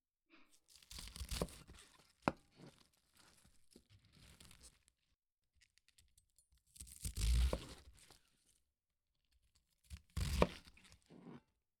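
A sharp kitchen knife slices through fresh cabbage, giving crisp crunching and tearing bursts. There are about three quiet cutting passes separated by near silence, plus a single small click between the first two.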